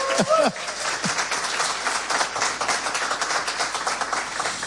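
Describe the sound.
An audience applauds a musician from London with dense, steady clapping that continues throughout. A voice is heard briefly at the start.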